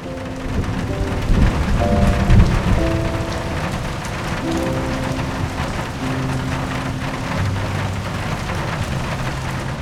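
Steady rain falls throughout, a dense, even patter that stays constant for the whole stretch, with sustained low tones running beneath it.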